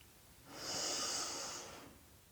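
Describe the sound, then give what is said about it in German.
One deep breath drawn in through the nose, a soft airy hiss that swells and fades over about a second and a half, faint and alone. “Atme mal tief durch die Nase ein. Lass uns das zusammen machen.”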